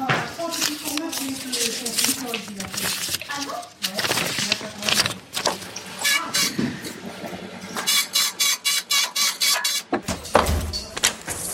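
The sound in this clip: Machines run inside the La Poste mail sorting centre in Libourne, a dense mechanical din of whirring and clatter that turns into a fast, regular clacking rhythm in the second half.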